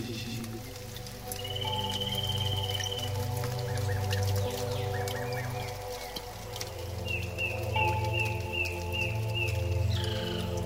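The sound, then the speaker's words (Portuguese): Many birds sing in a large tree's canopy at dusk near Alter do Chão. Thin, repeated chirps and whistled notes rise over a dense, steady hissing background. “abriga em sua copa uma infinitude de pássaros que cantam neste fim de tarde para se despedir do dia.”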